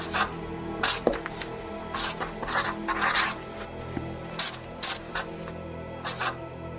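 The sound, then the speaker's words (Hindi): Scratchy writing strokes on a door come as many short, irregular rasping bursts separated by brief pauses. The sound is moderately quiet and there is no talk. “दरवाजे पे उनकी आंखों के सामने लिखता चला गया”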